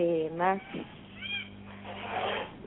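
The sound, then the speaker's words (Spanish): A domestic cat meows a few times, brief tonal mews heard in the background beneath a person talking. “Tu gatito está de fondo, hermoso.”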